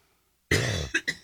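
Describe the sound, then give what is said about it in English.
Coughing and throat clearing from someone with a froggy throat: one longer, harsh rasping burst followed by two short, sharp coughs, fairly loud and without talk. “I don't know what is up with me coughing this morning. I apologize. A little froggy throat.”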